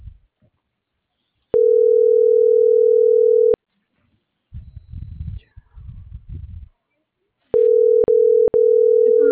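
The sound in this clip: Ringback tone of an unanswered telephone call: a steady, single-pitched electronic tone lasting about two seconds, a pause filled by a murmuring voice, then the tone returning in short broken stretches.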